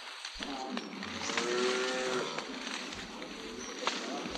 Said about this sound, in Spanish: creo que le gustaste al torito ese de allá.